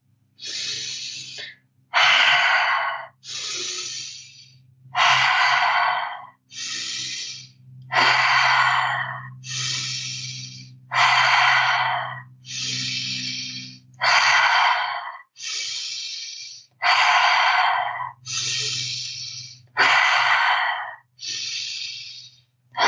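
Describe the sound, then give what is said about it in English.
Strong rhythmic breathing from a guided breathing exercise, with many deep, forceful breaths alternating in a steady, even pattern. A low hum sits faintly beneath them, and no one speaks. “And when you're ready, let's start the breath pattern together.”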